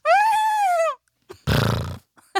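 A person imitates a horse whinny with a wavering, high-pitched voiced call lasting about a second, followed by a rougher, noisier vocal burst and a few brief faint sounds.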